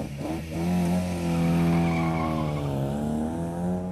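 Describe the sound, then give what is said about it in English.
A classic white Ford Escort races round a corner onto an old motor racing circuit in a park. Its loud engine note climbs, dips briefly, then rises again, with tyre squeal possible under the roar. “here in Crystal Palace Park as a car races towards me. I believe it's a white Ford Escort, a classic, as it turns this corner to join the old motor racing circuit”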